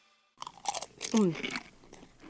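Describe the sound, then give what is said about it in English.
Loud crunching while someone eats a pretzel: a quick run of crisp, crackly bites and chewing, sharp bursts that come close together and then ease off toward the end. “Wow, you are really crunching loudly over there. Is that your way of asking for a pretzel?”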